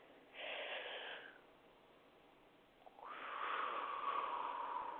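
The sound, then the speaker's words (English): A slow breath drawn in during a guided breathing exercise, heard as two soft, breathy rushes of air separated by a pause. The second is longer and louder, and no one speaks. “Let us breathe in”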